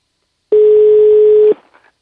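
A telephone ringback tone sounds while a call is being placed: a single steady, mid-pitched hum lasting about one second, starting abruptly and cutting off, followed by a brief faint trailing noise.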